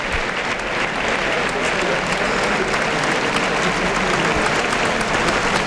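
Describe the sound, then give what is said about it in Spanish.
A bullfight crowd gives a loud ovation for a matador after his faena, with continuous dense clapping filling the whole stretch. Commentators' voices talk over the applause. “Bueno, pues el público... Ha reconocido el esfuerzo. El esfuerzo. Pese a los dos avisos, va a tener que saludar una fuerte ovación desde el tercio, Alejandro Talavante.”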